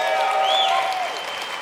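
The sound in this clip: A church audience applauds a warm welcome in Denver: dense, steady clapping from many hands with crowd murmur mixed in, holding at an even level for the whole stretch.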